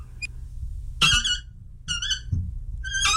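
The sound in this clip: Squeaky valve being turned, giving three high, strained squealing bursts separated by short gaps, with faint low rumble underneath.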